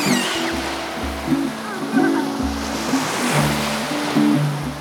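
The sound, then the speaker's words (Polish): Sea waves wash in a continuous, fairly loud surf roar, with low droning tones running steadily underneath. “Tak dziś brzmi morze.”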